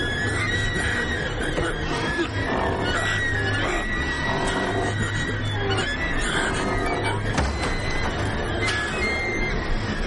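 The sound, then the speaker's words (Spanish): A mare neighs amid a steady, dense rumble of noise that stays at an even loudness throughout. “¡Para, yegua, para!”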